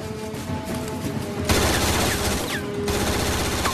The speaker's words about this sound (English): Really, no shortage of machine gun ammo.